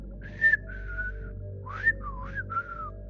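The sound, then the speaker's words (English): Whistling during a ghost hunt comes as a few short whistled notes with sliding pitch, including a rising glide and a dipping curve, fairly clear over a low steady hum; no voices. “And we get a whistling response.”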